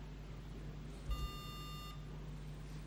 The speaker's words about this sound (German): so hört sich dann also so ein Beep-Ton an